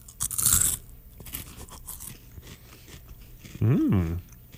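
A crisp bite into a food sample during a live tasting with an audience: a short, sharp crunch near the start, quieter rustling after it, then a brief voiced murmur that rises and falls in pitch.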